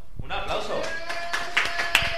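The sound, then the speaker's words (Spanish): Sparse audience clapping at a comedy show rises out of a busy mix of sustained musical tones and other sound, with a few distinct claps near the end. “Ahora sí. ¡Un aplauso!”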